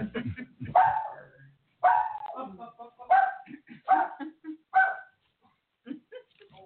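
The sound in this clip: A dog barks about five times in short, sharp bursts separated by pauses, ending with a couple of fainter yips.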